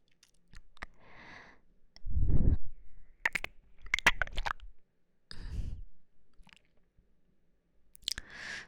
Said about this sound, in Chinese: 来，宝贝。姐姐喂你吃一个爆米花好不好？